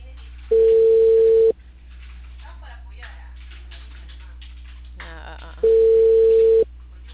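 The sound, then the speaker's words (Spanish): Ringback tone on an outgoing telephone call that goes unanswered. Two steady, mid-pitched tones of about a second each are separated by several seconds of faint line hiss and murmur. “Sí que llamo para pasarle a Marco, pero no contesta.”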